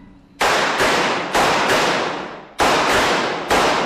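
Loud, sharp gunshots from shooters at a firearm training range, several cracking reports in two quick bursts with a brief pause between, each ringing out and fading before the next.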